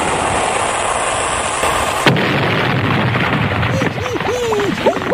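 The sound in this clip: A cannon-fire sound effect meant to sink a ship: one sharp blast breaks through steady noise and is followed by a low rolling rumble.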